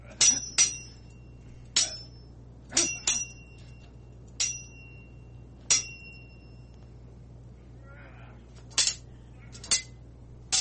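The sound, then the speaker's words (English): A metallic sword sound effect from a game: a series of sharp, bright clinking hits with short ringing tails, irregularly spaced with a longer pause before the last few. “Let's get into a little bit of sword ratchetness. My sword sound effect.”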